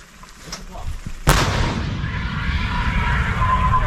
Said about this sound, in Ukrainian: Дають і коректировочку, гармата донаводиться і попадає прямо в ціль. САУ старая, еще советская